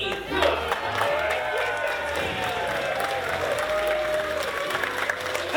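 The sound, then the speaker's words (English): Audience at a live show cheering and applauding: loud, dense clapping with a few shouts, holding at an even level throughout. “make some noise for your monster of ceremonies, me!”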